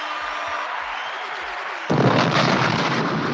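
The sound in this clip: An explosion sound effect: a few soft low thuds, then a sudden loud, broad blast that roars on steadily to the end.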